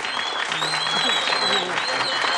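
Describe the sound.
Applause sound effect: dense, steady clapping lasting a couple of seconds, with a voice briefly heard over it.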